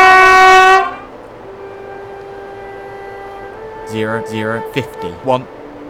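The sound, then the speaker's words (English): A London Underground Piccadilly line train: a loud harmonic whine stops abruptly near the start, leaving a low steady hum, and a voice then speaks over it. “This is a Piccadilly line service to Hounslow East.”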